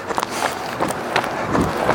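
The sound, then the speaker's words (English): Running footsteps of a runner on the return leg of a five-mile run, past the eight-kilometre turn, a steady rhythm of many footfalls over constant background noise. “I'm running back on my second leg of a 5 miler. I've just made my turn at the 8 kilometer point,”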